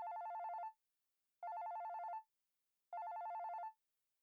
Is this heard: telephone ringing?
yes